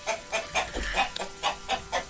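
Chickens cluck in the morning in a hearty, regular string of short clucks, moderately quiet and evenly spaced, with no voices.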